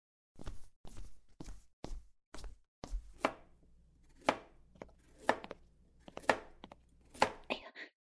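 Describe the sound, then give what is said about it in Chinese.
Food is chopped with a knife on a board in a kitchen. Sharp, loud strikes come quickly at first, then fall into a slower, evenly spaced rhythm of single chops, with quiet gaps between them. “我去厨房给你做饭啊”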